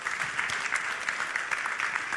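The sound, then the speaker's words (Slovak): An audience at a church service claps loudly for visiting guests. The dense, even applause runs steadily from start to finish with no break. “Môžem ich zatliskať, jeden veľký potlesk.”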